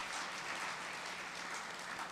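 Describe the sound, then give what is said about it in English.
Applause from an evening audience for the event's host: fairly faint, even hand clapping that holds steady for the whole stretch with no talk over it. “I think we should give a round of applause for our host for the evening, Mark Robbins.”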